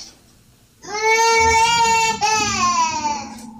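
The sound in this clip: A baby cries in a loud, high-pitched wail lasting a few seconds, breaking briefly midway before carrying on.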